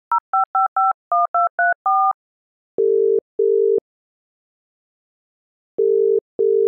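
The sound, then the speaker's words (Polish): Telephone call being placed: eight quick two-tone keypad beeps, then two pairs of lower, steady ringing tones separated by a long gap, with no voices. “Dobra, zadzwonię do tej pani, e, do pani Nikoli.”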